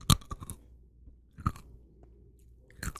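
Crunchy chewing of Nerds candy: a few loud bursts of crisp crunching, separated by quieter pauses of soft mouth sounds, with no talk.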